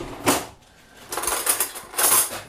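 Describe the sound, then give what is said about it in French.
Cutlery laid on a table covered with a green tablecloth, a knife, fork and spoon set down in turn: a few separate bursts of bright metallic clinks and rattles with quiet gaps between them. “Alors, couteau fourchette. Couteau, oui, après fourchette. Une cuillère ou... Oui, voilà, cuillère”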